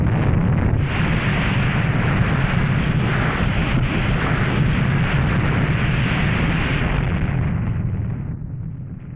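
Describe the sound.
A simulated nuclear bomb detonation over Chicago gives a loud, continuous deep roar with broad rumbling noise. It holds steady for about eight seconds, then fades slightly at the end.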